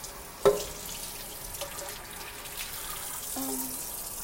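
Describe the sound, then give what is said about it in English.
Water runs steadily into a sink while a plate is washed, a soft, even hiss with a sharp knock near the start and a brief squeaky tone later on. “We're gonna wash this plate like a good wife.”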